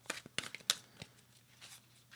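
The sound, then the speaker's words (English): A thick tarot card is drawn from the deck, giving a few quick papery snaps and soft rustles early on, then near-silence. Faint and brief, with no talk. “I just want one card. I'm not taking a ton. Just one card to finish up. I know these are thick cards.”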